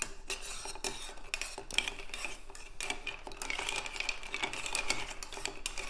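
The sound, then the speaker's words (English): Spoon stirring a Martinez cocktail over ice in a cocktail shaker, making a steady run of quick, bright clinks and scrapes with no talk. “And then we're not going to do anything exciting like shake it. This cocktail just wants a little stir.”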